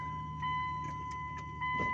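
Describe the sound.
A car driving on the way to work, heard as a steady low engine rumble under a constant high whine, with a few faint ticks and no talking.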